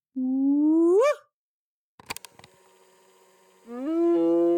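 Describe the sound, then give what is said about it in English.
Spotted hyena whoop calls played through a loudspeaker: two long, hollow whoops, the first sliding steadily upward in pitch and cutting off, then a few sharp clicks before the second whoop rises and holds. “I'll use my speaker to call the hyenas in using their sounds. One of the calls that they used, it's like a homing signal, like there's something exciting over here, come here, is the whoop, which sounds like this.”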